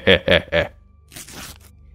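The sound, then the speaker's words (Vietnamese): Cloth tearing as a traditional áo bà ba blouse is ripped open: a short rough ripping burst of fabric, preceded by a few spoken syllables. “Hắn xé cái áo bà ba của chị Mai rách toạc ra, để lộ bên trong là lớp áo túi mỏng manh đã cũ.”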